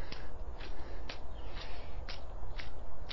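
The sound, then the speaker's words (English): Footsteps of someone walking on tiptoes during a stretching exercise: a steady, even series of soft, light steps over a constant low rumble, with no talk. “Okay, turn and go back the other way. I'm gonna walk up on my tiptoes, stretch out my ankles, my calves,”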